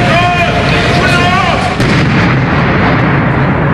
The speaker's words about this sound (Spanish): La emergencia terminó con la detonación controlada del artefacto explosivo que fue encontrado la madrugada de este jueves fuera del Complejo Judicial Norte de Quito.